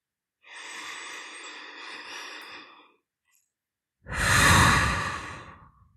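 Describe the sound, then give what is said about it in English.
A deep, calming breath during a guided relaxation: a long, slow, airy inhale, a short pause, then a louder, rushing exhaled sigh that fades out. “And now I want you to take 3 deep calming breaths.”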